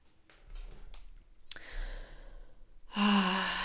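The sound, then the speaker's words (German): A deep breath, faint and airy at first, then a loud, voiced, sigh-like exhale that rises in the final second. “Tiefer Atemzug hier an diesem Punkt.”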